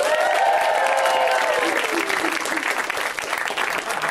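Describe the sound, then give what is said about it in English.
Comedy theater audience applauding the comics on a Tuesday night show, a full burst of clapping and crowd noise that stays strong throughout, with a voice over it early on. “Thanks for coming out to Put Your Hands Together. We've got an awesome group of comics. They're all in back. They can hear you. Let's hear it for them.”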